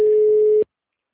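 A telephone busy signal on an unanswered call: one steady mid-pitched tone lasting just over half a second, then cut off abruptly into silence.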